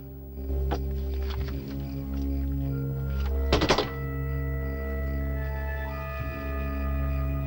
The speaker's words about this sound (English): Chris removes his gun belt and drops it onto the table.